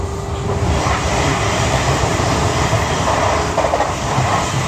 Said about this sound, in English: I'm out and about again. I'm on the train.